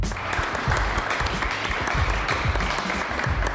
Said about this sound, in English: that's the sound of celebration at the final ceremony of Sail Canada's 2025 Senior Championship, hosted by Cork Sail Kingston.